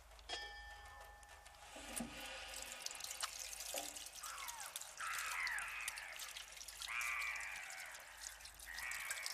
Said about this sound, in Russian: Открыла кран, брызнула себе водой в лицо.